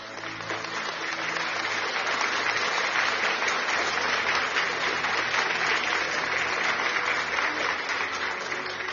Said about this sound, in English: Hey, clap for all those that are married. Clap for them. Clap for them.